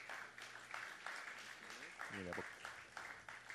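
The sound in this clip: Applause from an audience welcoming a pastor onto the stage: a steady, dense clatter of clapping that holds throughout, with a voice briefly rising over it midway.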